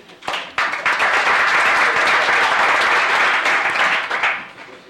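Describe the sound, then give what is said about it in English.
Applause welcomes a guest seated in the gallery of a legislative chamber. It rises quickly into a dense, steady roar of clapping that holds for about four seconds before tapering off. “I'd like you to give him a hand as a welcome and also a hand in another matter that we've been working on.”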